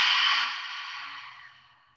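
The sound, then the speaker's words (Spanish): A long exhale through a wide-open mouth during a guided tantra breathing exercise: one steady, breathy airy rush that starts fairly loud and slowly fades away over about two seconds, heard alone without any talking. “Relaja tu entrecejo y exhala por la boca abierta.”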